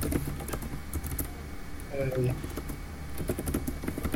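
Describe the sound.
Typing on a computer keyboard while the story is written during a tabletop role-playing session: many quick, irregular key clicks in uneven bursts, with a brief vocal sound partway through.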